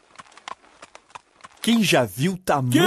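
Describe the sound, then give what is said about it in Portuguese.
Hooves clop from a farmer's horse-drawn cart loaded with seeds on its way to the mill. Several sharp, irregular clops sound alone at first, then a voice begins talking. “Primeiro, veio um fazendeiro com uma carroça carregada de sementes que levava para a moagem na usina.”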